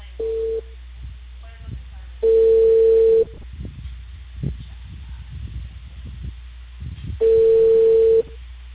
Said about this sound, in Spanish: Espera, te va a salir tu llamada.